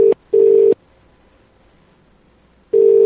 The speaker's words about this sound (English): Well, it's ringing.